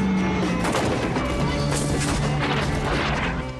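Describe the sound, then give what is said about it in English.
Mortar fire from troops crouching in poppy fields: a dense, loud, continuous roar of overlapping blasts and crashes that runs the whole length without a break, easing only slightly at the very end. “Troops crouching down in poppy fields fire mortars.”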